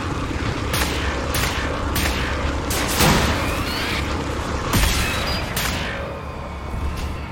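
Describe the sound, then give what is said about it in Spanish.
Shotgun blasts ring out in the video game Wolfenstein: The New Order, a series of sharp, booming bangs spaced irregularly over a constant noisy backdrop of in-game sound. “Vamos a disparar, sure no. Oh, una escopeta, nice.”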